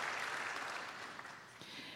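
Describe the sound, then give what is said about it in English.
Applause from an audience at a discussion event, a soft, dense patter of many hands that gradually thins and fades toward the end. “Very worthy of applause.”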